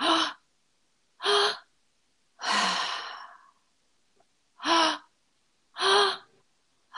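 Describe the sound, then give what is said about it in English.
Breathwork done through the mouth: two sharp, loud inhales followed by a longer, sighing exhale, then two more quick inhales begin the next cycle, each breath separated by silence. “breath into the belly, breath into the chest, and breath out the mouth. It's all going to be done through the mouth. And so it's two inhales and an exhale. Sounds like this.”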